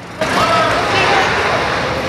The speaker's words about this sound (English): The Humvees drive into a large, dusty compound.